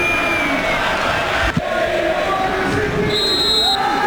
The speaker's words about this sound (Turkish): Ve son düdük geliyor maçın hakeminden.